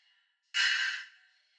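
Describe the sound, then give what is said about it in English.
A slow, deep breath during a calming breathing exercise is let out as one loud, airy exhale that starts abruptly and fades within about half a second, with no talk. “Take a slow, deep breath in and let it out.”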